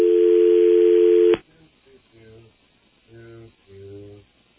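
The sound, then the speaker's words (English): A telephone line tone sounds while calling a Korean restaurant in Baltimore: one loud, steady tone holds for about a second and a half, then cuts off abruptly and people talk. “Now, let it ring for one moment to establish we're dialing.”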